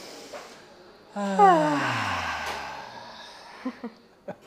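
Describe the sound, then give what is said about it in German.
A group breathing out together through the mouth gives a loud voiced exhale whose pitch slides steadily downward, rising from quiet and then fading, with a few short soft clicks near the end. “jetzt lass uns nochmal gemeinsam einatmen und dann durch den Mund so ein, hopp, komm, das machen wir gemeinsam.”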